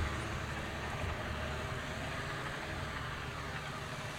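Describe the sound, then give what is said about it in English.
Steady engine rumble from a bulldozer driving across the dirt of a 9-acre strawberry field while sloping the land to drain rainwater, a continuous, even drone that holds the same level throughout with no voices. “Farmer William Fletcher stood on the edge of his strawberry field and pointed to a man in a bulldozer driving across the dirt.”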